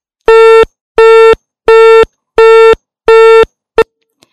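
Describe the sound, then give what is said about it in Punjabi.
A phone line gives a busy tone after a phone-in caller's connection drops. Five loud, identical, evenly spaced beeps sound alone, then a sixth is cut short. “ਲੱਗਦਾ ਕਿ ਇਹਨਾਂ ਦਾ ਸੰਪਰਕ ਸਾਡੇ ਨਾਲ ਟੁੱਟ ਚੁੱਕਿਆ ਹੈ ਜੀ।”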